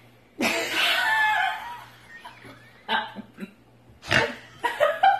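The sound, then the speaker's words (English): A loud, breathy snort bursts out abruptly and trails off over about a second, followed by several shorter noisy bursts that may be laughter. “Oh, we got a snort. We got a snort.”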